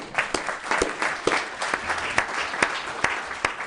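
Applause welcoming a guest to the senate chambers: steady, dense clapping from many hands, with sharper individual claps standing out at a fairly even pace throughout.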